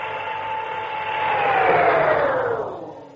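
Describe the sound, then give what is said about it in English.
An elevator grinding to a stop and getting stuck as its power cuts off: a loud mechanical whirr with a whining tone that swells, then slides down in pitch and fades as it stalls. “Well, is this my floor already? No. No, it's not. Then why are we stopping? Elevator's stuck.”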